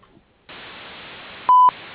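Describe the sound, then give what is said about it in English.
Answering machine gives a single short, steady beep lasting about a fifth of a second. It sounds loudly over a constant hiss. “if you leave your name and number after the beep”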